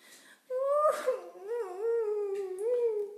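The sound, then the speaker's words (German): A drawn-out whimpering cry during a children's Easter bunny play: one long, wavering wail that starts abruptly, swells, dips and rises again in several sustained sobbing contours. It is fairly loud, with no talk over it. “Wer weint denn da?”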